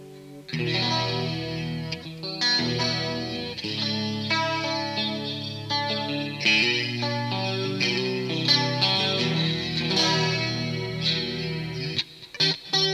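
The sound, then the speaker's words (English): Electric guitar through a built-in chorus modulation effect with the intensity turned up, ringing sustained chords with a shimmering, wavering tone and a brief gap near the end, no talk. “Why don't we hit this button that says modulation, that is set to chorus right now. Turn the intensity up.”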